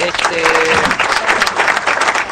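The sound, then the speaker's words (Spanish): Steady applause with dense, continuous clapping that stays loud and even from start to finish. “Necesitamos aplauso para Nataluti.”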